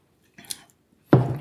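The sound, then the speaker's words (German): A sip of filtered, light golden beer: a soft, short slurp, then a pause and a louder, wetter burst at the end. “Und ich nehme mal einen Schluck. Ich nehme auch noch mal einen.”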